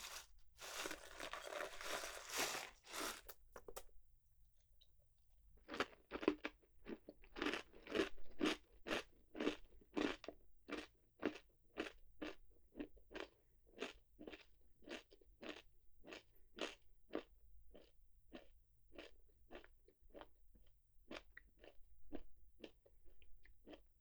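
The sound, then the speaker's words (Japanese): Crunching of kaki no tane rice crackers and peanuts eaten together: a dense, loud burst of crackling bites, then many steady, rhythmic chewing crunches with no talking. “柿の種とピーナッツ交互に食べても美味しいし、でも私はなんて言ってもこれかな。”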